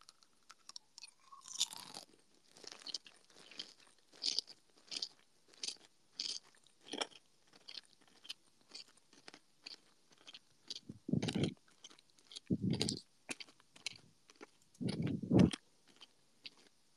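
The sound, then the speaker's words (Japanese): Kohakuto amber sugar candy is chewed with many crisp, brittle crunches in an irregular rhythm. The crunches are quiet overall, and a few heavier, duller bites come toward the end. “これがまず琥珀糖ね。これをちょっとひたすらね、ガリガリ”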